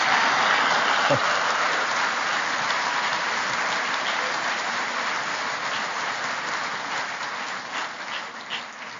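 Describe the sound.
Audience applause welcoming a guest speaker, a dense, steady wash of clapping that holds through most of the stretch and slowly thins and softens toward the end.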